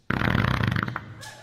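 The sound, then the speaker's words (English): A single fart sounds out, a buzzy, rattling low rasp lasting nearly a second at even strength before trailing off into a faint hiss. “Is that a fart? It's the shrimp.”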